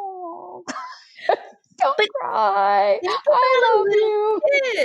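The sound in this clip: A voice imitates a crying, whimpering person with wavering, high whimpers and drawn-out sobbing wails, broken into a few loud bursts with short catches of breath between them.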